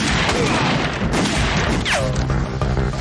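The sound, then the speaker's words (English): Gunfire in a hallway gunfight, a loud, dense barrage of crashing bangs and booms that runs through the whole clip without a pause. “So now that a gunfight's ensuing in the hallway”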